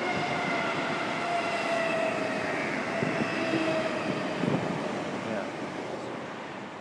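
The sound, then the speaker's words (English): A passing train rumbles in a steady, broad roar with faint tonal whines riding on top, heard from a car park and easing slightly toward the end. “That was a train, yes.”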